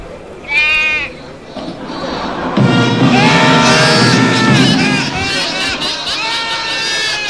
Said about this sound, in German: Leise meckert er, der Bock der Geiße